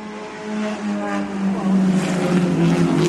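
Racing car engines at a motor race on a hillside circuit. A continuous, droning engine whine that builds slightly louder and rises in pitch partway through.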